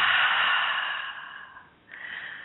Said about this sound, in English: Again, deep breath in and out. Again, deep breath in and out.